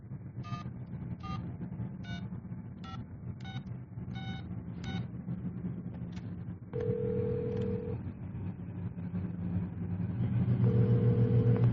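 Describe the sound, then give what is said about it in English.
Touch-tone telephone number being dialed: seven short beeps in an even rhythm over a low rumble, followed by a longer steady tone and then another as the rumble swells. “Dial your number.”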